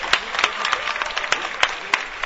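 Hand clapping from a crowd at a gathering, honoring a performer: sparse, irregular claps with several sharp, distinct smacks standing out above a thin layer of softer clapping, moderately loud throughout.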